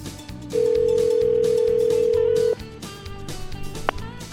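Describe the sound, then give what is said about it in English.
Telephone dial tone as a call is placed to a sports shop: one steady, loud, even hum lasting about two seconds over continuous background sound, then a brief faint beep. “So here we go, dialing up Steve Kosky at Indian Country Sports in Lawrence.”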